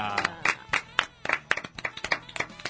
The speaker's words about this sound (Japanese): はい、拍手。